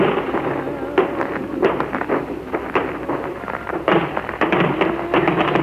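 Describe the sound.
Artillery barrage explosions on a D-Day battlefield, with many men sheltering behind banks in a cornfield. Many sharp booms and thuds follow in quick, irregular succession, loud over a constant rumbling roar. No voices.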